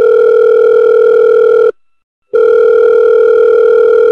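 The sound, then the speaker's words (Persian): Telephone line tone while a number in Germany is dialed and the call rings through: a steady, clear electronic tone that cuts out once for about half a second near the middle, then resumes. “من بدون اینکه صبر کنم و ببینم در آلمان چه ساعتیه شماره رو گرفتم”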